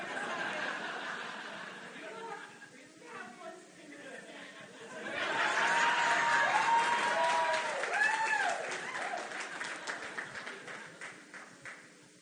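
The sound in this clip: Small audience clapping at a bootblack contest event, a burst of loud clapping rising in the middle with laughter and people talking before and after it.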